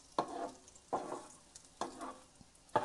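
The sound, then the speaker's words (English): A cake frying in a pan gives a faint, steady sizzle, broken by a few louder scraping or stirring bursts at fairly even intervals, with no talking. “As you can hear the sizzling going on slightly in the background.”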